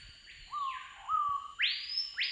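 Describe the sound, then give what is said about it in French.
Call of the piot, an Amazonian bird: a few clear, faint whistled notes in two registers, some lower and some higher, that glide and overlap. “Le piot, c'est un oiseau qui est exclusivement amazonien.”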